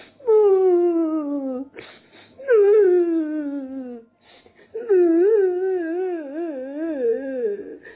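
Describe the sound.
Wailing cries of a character in a story, three drawn-out tonal sobs. The first two slide downward in pitch and the last wavers. Loud, with no words.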